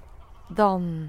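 A goose gives one loud, nasal honk that sounds briefly after a faint low background, then holds with a slight downward slide in pitch.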